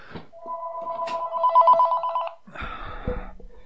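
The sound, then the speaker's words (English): A telephone rings with one sustained, warbling electronic ring of about two seconds, steady and fairly loud, followed by a burst of other mixed noise. “Yeah, must be my regular weekly caller. The phone rings.”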